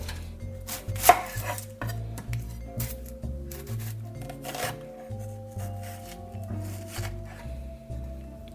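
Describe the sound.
A knife chops an onion for a sandwich in quick, sharp cuts, many of them in an uneven rhythm. It is fairly loud throughout, with one especially hard strike near the start.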